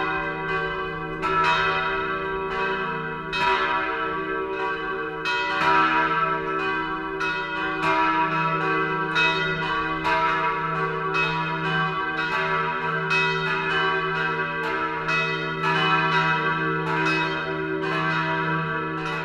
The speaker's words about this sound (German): Das Mittagsläuten kommt heute aus Wolkshausen in Unterfranken.